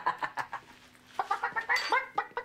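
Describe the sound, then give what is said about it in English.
A man imitates a chicken, clucking in a quick, rhythmic run of many short, sharp clucks that pause briefly and then return louder and higher, ending in a squawk-like burst. “If you start clucking like a chicken, I'll give you your keys back.”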